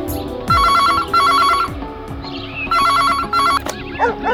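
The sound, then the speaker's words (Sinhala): A landline telephone rings in a home, giving four bright, trilling electronic bursts in two pairs with a short gap between the pairs. The ringing is loud and sits over a low background. “ප්‍රසල් ධාරගේ ගෙදර land phone එකට call එකක් ගත්තේ”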